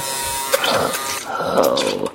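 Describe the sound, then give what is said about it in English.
An electric shaver buzzes unevenly, its mechanical whir rising and dipping in loudness through the short stretch, with no clear speech. “Work this goddamn shaver.”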